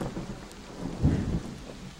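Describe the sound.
Steady rain hisses throughout while a single low roll of thunder swells up in the middle and then fades back into the downpour; the whole scene is fairly quiet, with no voices.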